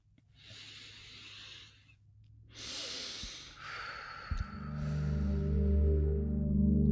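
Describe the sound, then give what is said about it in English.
Slow, deep breaths drawn in and let out as soft rushing air, a long inhale followed by a longer exhale. Partway through, a steady low humming tone enters and grows, sustaining to the end beneath the fading breath. “let's take a breath”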